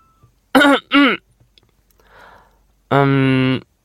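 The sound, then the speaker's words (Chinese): A man clearing his throat in a dramatized scene: two short, voiced coughs close together, a faint breathy sound, then a longer voiced grunt. The sounds are fairly loud against silence. “展昭咳嗽了一声，打破尴尬。”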